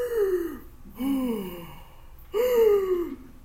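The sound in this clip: A voice imitates forceful, monster-like breathing (hyperpnea). Three loud, heavy breaths are separated by short pauses, each carrying a voiced, growling tone that slides downward.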